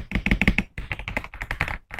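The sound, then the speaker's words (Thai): Crisp clacking presses of Loga Thai Tea tactile keyboard switches, a fairly loud two-stage keystroke. Many quick presses come in rapid bursts separated by short pauses, with no talk. “สวิตช์ตัวแรกชาไทยชาไทยจะเป็นแท็กไทสวิตช์กด2จังหวะจะมีเสียงที่ค่อนข้างดัง”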